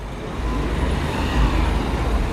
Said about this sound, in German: Ich bin inzwischen am Rudolfplatz auf den Kölner Ringen angekommen. Tagsüber ein zentraler Verkehrsknotenpunkt, abends flanieren die Menschen in Bars und Clubs.